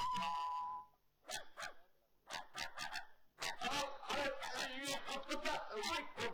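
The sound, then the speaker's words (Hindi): A dog barks repeatedly at home in a few sharp, loud bursts, with pauses between them, while people talk over and around the barking. “ये कुत्ता तो sir दर्द कर गया”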